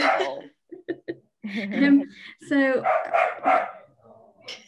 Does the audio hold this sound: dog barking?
yes

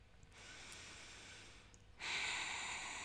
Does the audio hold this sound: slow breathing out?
yes

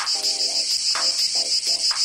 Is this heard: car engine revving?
no

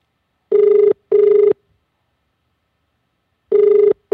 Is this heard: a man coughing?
no

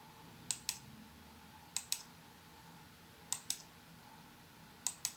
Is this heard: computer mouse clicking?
yes

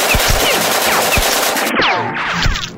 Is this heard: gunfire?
yes

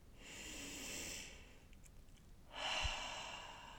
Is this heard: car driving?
no

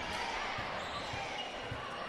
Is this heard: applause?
no

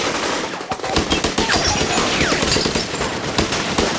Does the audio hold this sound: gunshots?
yes

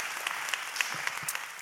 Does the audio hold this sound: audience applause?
yes

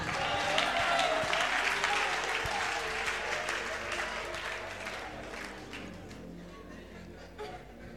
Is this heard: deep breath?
no

